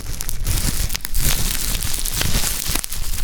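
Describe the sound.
Bubble wrap is ripped and crinkled as a sound effect for a Cyberleader emerging from its plastic wrapping, with dense, continuous crackling and several sharper tearing bursts.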